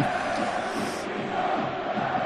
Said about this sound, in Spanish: El Sánchez Pizjuán, que se va vaciando poco a poco.